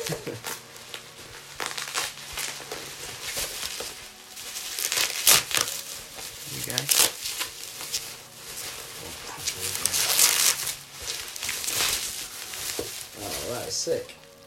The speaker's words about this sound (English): Oh, we've got a layer of bubble wrap for you to see what this is here. Yeah. I actually put that tape on.